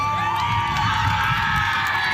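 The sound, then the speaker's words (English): Team Manitoba's female baseball players cheer after a home run at a national championship in Winnipeg, with a steady burst of excited, high-pitched shouts and whoops. “Team Manitoba erupting in cheers after scoring a home run.”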